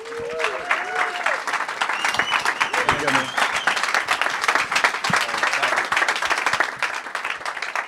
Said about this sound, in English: So put your hands together. Let's welcome him.